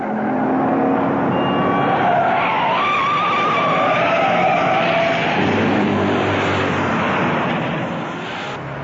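Tires squeal and engines roar as a car swerves sharply while another car chases it in a film chase scene. The screech is loud and continuous for about nine seconds, easing slightly near the end, with no talk.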